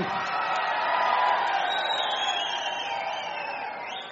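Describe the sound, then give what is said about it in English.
A live concert audience sings along as one continuous mass of voices with some cheering mixed in. The sound stays steady and full throughout, then eases off slightly toward the end. “You're singing very well, I must say. This is a really good audience.”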